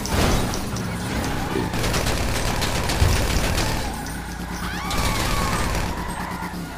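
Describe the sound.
Gunfire in a GTA 5 video game: rapid bursts of repeated sharp shots come in dense volleys over a continuous, loud, rumbling mix of game noise.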